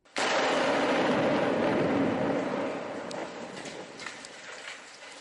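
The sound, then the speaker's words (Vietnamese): Barrel bombs exploding on a city's outskirts: a sudden loud blast that rolls into a long, dense rumble, fading gradually over several seconds, with no voices. “Những âm thanh mà quý vị vừa nghe là tiếng bom thùng phát nổ trong vùng ngoại ô Aleppo hồi đầu tháng này.”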